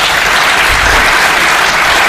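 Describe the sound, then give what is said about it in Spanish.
An audience applauding a guest, dense loud clapping from many hands that stays even and unbroken for about two seconds. “Pido un aplauso de nuevo para Jesús.”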